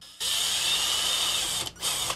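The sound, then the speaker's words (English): A power drill bores pilot holes in plastic while fitting an antenna connector: a loud, steady high whine runs for about a second and a half, stops briefly, then returns for a shorter second burst. “First, I'll drill my pilot holes and then we'll work up to the actual size.”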